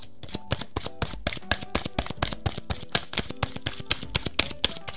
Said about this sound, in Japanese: はい、こちら、せーの、よいしょ。お、ワンドのキングのカードが出てきました。今日はね、タロットを引かせていただいてますが